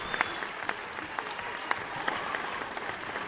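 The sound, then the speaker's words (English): Audience applause at the close of a panel debate on agriculture, a steady patter of many hands with a few sharper individual claps popping out, fairly soft and without voices. “ask everyone to give a big round of applause for Mark, our moderator.”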